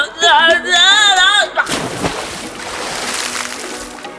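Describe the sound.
Water sloshing and splashing as people lower themselves into a hot bath at a public health spa. A voice sounds first, then a sudden burst of splashing gives way to a steady swishing ripple.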